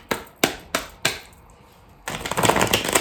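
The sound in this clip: Tarot cards being shuffled: four sharp slaps at even spacing, a short pause, then a quick run of rapid fluttering clicks as the deck is riffled.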